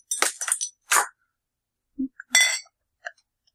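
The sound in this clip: A beer bottle is cracked open, a 5.6% ABV brew made with Styrian Goldings and Fuggles hops: several sharp glassy clinks, then a brief bright fizzing hiss and a couple of faint ticks.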